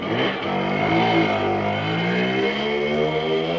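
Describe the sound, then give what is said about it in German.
Simson mopeds rattling along a road at 60 km/h, heard as a loud, continuous buzzing engine drone that holds steady throughout, with no talk. “damit künftig noch mehr Simsons mit 60 km/h über die Straße knattern.”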